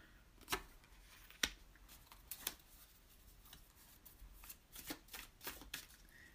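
Playing cards are shuffled in soft, faint riffles and flicks, arriving in several short bursts with quiet gaps and no talking.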